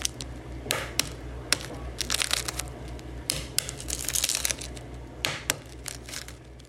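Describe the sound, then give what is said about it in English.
Dense crackling and crinkling as the shell of a hard-boiled egg is cracked by banging it on a counter, then peeled: many quick, sharp snaps and crunches over a steady low hum. “The banging is when you bang it on the counter to, like, get it all cracked up.”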